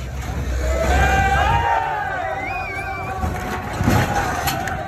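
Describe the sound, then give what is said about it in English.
Two tractors topple a lorry full of foreign goods during a farmers' protest in Narbonne, France: a loud continuous engine drone with whining tones that waver up and down, mixed with crowd shouting and cheering. “That's the sound of two tractors toppling a lorry full of foreign goods in Narbonne on Friday.”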